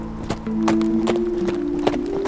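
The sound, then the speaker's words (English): Hooves of horses walking along a difficult forest trail, many uneven clops over a steady sustained tone. “Flint and the Dancer guided their horses along the difficult trail with casual ease.”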